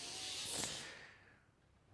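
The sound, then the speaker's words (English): A deep inhale through the nose during a yoga breathing exercise makes a single airy hiss that swells, peaks and then fades away to near quiet. “all you have to do is you just inhale through the nose”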